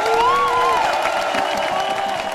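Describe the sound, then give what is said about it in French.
Applause and cheering from a crowd at a volunteer activists' event, praising the canteen team: dense continuous clapping, fairly loud, with cheering voices rising above it early on before settling into steady applause. “Et on en profite, je pense, pour faire un énorme bravo aux méga-cantines qui nous ont tout préparé.”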